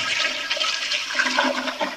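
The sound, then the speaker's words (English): A toilet flushing in an apartment: continuous loud rushing and gurgling water through the whole clip, steady without pauses, alone with no voices. “I'm going to keep flushing. Like, I'm going to flush over and over, and maybe it'll be gone by the time you get here.”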